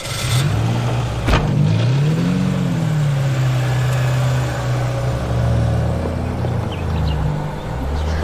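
Car engine revs as the vehicle pulls away, its pitch climbing briefly before settling into a loud, steady engine hum that continues to the end with no voices.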